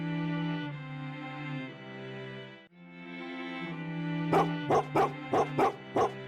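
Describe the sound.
Huskies heard during an overnight stay in the cold: a long stretch of sustained, tonal whining and howling, followed by a run of about six short, sharp barks and yips.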